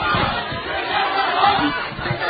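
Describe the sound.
Noisy people in the public gallery disrupt a council meeting, their overlapping shouts and chatter forming a loud, steady clamour throughout.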